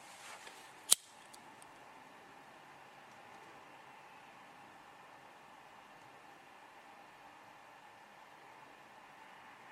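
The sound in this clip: A single crisp snip of scissors cutting through cord, one sharp brief click near the start, followed by a steady faint hiss with no talk.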